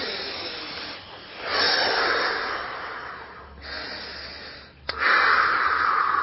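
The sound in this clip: Deep breathing demonstrated by a person: long, airy breaths rising and falling in loudness over several seconds, the final breath the loudest and most sustained.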